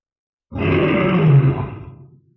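A red-furred creature roaring in pain: one deep, rough, growling bellow of under two seconds that starts abruptly, swells loudly and then trails away.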